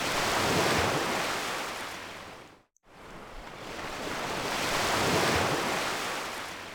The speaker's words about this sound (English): we were just playing this ocean wave sound over and over again